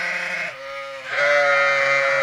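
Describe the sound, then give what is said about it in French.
Boulonnais sheep rams, one nine months old and one five years old, bleat in drawn-out, wavering nasal calls. The bleating grows louder and higher in its second half and is heard alone. “Ces deux béliers boulonnais de 9 mois et 5 ans assurent la reproduction de l'espèce auprès de 200 brebis avec 6 de leurs congénères.”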